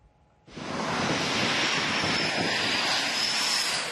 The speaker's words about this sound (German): Irgendwo im Persischen Golf Kampfflugzeuge landen und starten im Minutentakt.